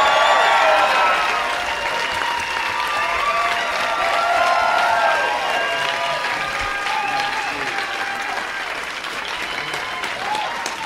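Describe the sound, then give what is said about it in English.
A live audience at an SF Sketchfest comedy show gives a standing ovation to a welcomed guest: loud, sustained applause with scattered cheers and whoops, holding strong and easing slightly toward the end. “Oh my God, standing ovation from people.”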